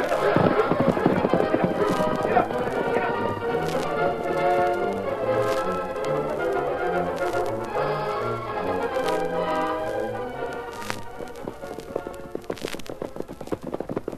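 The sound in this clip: Horses set off under riders, hooves clip-clopping in a steady run of sharp taps that continues throughout, with people talking over the hoofbeats.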